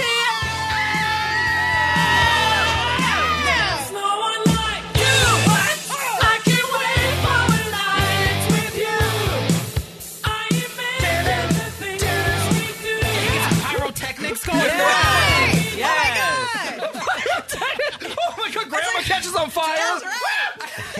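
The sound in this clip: Crowd cheering and whooping to welcome newlyweds at their wedding reception entrance, with loud, sustained yells and screams running unbroken through the whole stretch.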